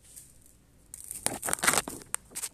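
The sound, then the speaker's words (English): A slinky spring toy being played with gives off a run of crinkly, rattling metallic swishes. It starts quietly, then grows into many quick, uneven bursts that come and go. “Can you hear that? It's the sound of my slingy.”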